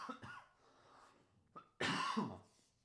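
Faint cough from someone with spit caught in the throat: brief throaty rasps, then a short catch and a louder, rougher cough burst.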